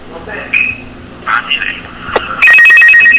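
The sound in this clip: A telephone rings with an incoming call. After a stretch of talking, a loud, steady electronic warbling ring starts and holds to the end.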